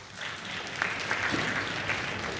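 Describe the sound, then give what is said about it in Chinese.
Audience applause welcoming a pair of crosstalk comedy performers onto the stage. Dense, steady clapping holds at an even, moderately loud level throughout, with no speech over it. “咱们掌声有请二位”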